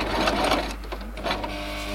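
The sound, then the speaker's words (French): Sewing machine whirring and rattling steadily as two women carefully stitch figurines in a craft workshop, a brief run of mechanical stitching with no talk. “Dans l'atelier ce jour-là, deux femmes s'emploient à coudre minutieusement des figurines, un véritable artisanat.”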